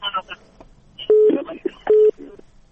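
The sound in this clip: Two steady, mid-pitched electronic beeps from a telephone line that has been cut off, a disconnect tone. They follow a brief stretch of voice and are evenly spaced, each lasting about a fifth of a second.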